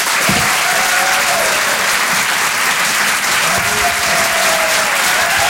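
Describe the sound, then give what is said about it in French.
A comedy club audience gives loud, steady applause, a dense wash of clapping that holds at an even level throughout with no pauses. “Faites un maximum de bruit, s'il vous plaît, pour monsieur Yann Guillaume.”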